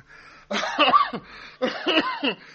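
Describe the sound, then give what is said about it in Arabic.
A sick man coughs in a hospital room, his cough made worse by medicine, in two harsh, raspy bouts separated by a short pause, fairly loud with nothing else around. “الراجل تعبان، ما بطلش كحه لما تلف لي اعصابي.”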